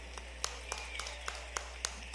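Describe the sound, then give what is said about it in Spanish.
Sparse, evenly spaced hand claps from the audience at a live salsa show, in tribute to the band's maestro. The sharp single claps keep a steady beat over a low, constant hum. “El aplauso para el maestro también.”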